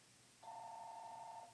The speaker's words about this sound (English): Oh, I think that's the sound of someone calling in right now.